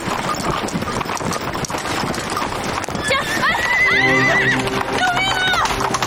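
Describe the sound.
A horse's hooves clip-clop steadily under a rider while the horse gives loud, shrill neighs in the second half, with people shouting over the commotion.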